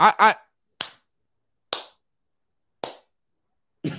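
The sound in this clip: A slow clap: four sharp, dry hand claps spaced about a second apart with silence between them. They follow a brief voiced sound at the start.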